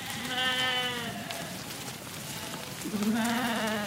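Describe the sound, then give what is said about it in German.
Sheep bleat from a large flock of several hundred animals following a shepherd across a forest clearing: a few long, wavering bleats, loud and overlapping, over a steady background hiss. “Ein Schäfer in langem Umhang schreitet über die Waldlichtung, hinter ihm eine riesige Herde mit mehreren hundert Tieren.”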